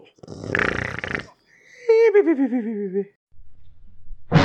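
A sleeping man snores: a harsh, rasping intake, then a wavering, voiced exhale that slides downward in pitch, followed by a low, faint rumble.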